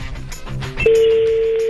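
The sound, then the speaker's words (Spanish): A telephone dialing a call, a quick run of short keypad tones followed by a steady, sustained pure tone that holds to the end. “Estoy marcando. Ojalá conteste. Que conteste.”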